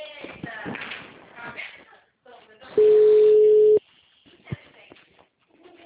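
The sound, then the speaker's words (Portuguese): A telephone line tone sounds while a phone call is being placed: one loud, steady, level-pitched tone lasting about a second, with talk before it and faint rustling after. “deixa eu fazer uma ligação aqui, por favor.”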